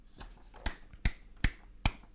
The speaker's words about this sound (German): klatscht Beifall.